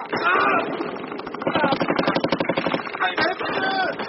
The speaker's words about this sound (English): Larsen's party and the two Norwegian policemen opened fire at point-blank range.